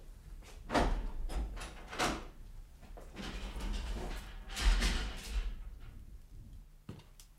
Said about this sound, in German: Nun schließen Sie schon auf